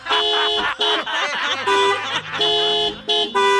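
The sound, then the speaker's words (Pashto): A car's pressure horn blares in a series of loud, brassy multi-tone blasts, some long and some short with brief gaps, its chord shifting between bursts. “یو هارن ستا په ګاډۍ کې دی، اوس در ښکاره کوم د خپلې ګاډۍ هغه پرېشر هارن.”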